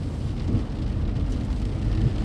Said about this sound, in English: I'm driving home in the rain from Dalton, hoping that the rain has let up in Cartersville